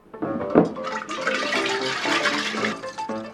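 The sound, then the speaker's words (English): Oil is poured into water in a demonstration, making a splashy, gurgling liquid pour of moderate loudness that runs steadily for about three seconds with small bubbling swells. “You can see it happening in this demonstration. Oils are just liquid fats. What happens when you pour oil into water? It floats. It doesn't mix.”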